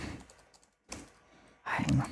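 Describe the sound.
Keyboard typing of a flirt text message: bursts of rapid key clatter separated by a short pause, faint at first and then louder and denser.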